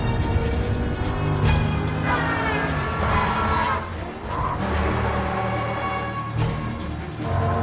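A car speeding the wrong way against traffic: engine roar with repeated sharp tire squeals and skids, loud and continuous, with no talk.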